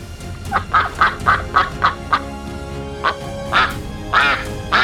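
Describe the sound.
Ducks quack in a quick run of nasal, buzzy calls, about seven in close succession. A short pause follows, then a few louder quacks come more sparsely to the end.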